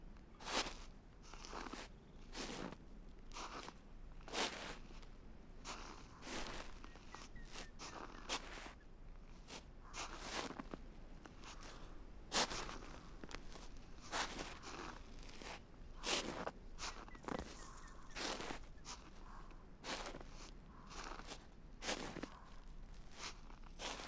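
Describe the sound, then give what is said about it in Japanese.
Footsteps walking along a snowy path, with many steady, soft crunching steps in an even rhythm that continue throughout. “それにしても雪道を歩く音も心地いいものだね。”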